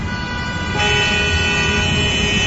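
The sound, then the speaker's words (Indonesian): Car horns blaring in a traffic jam. A held, loud, buzzy tone sounds over low traffic rumble and shifts to a slightly different pitch partway through. “Duh, macet banget sih.”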